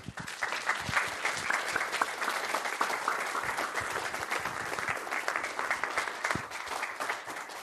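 Audience applause welcoming guests to the Commonwealth Club stage: dense, steady clapping from a large crowd, sustained at an even level for several seconds.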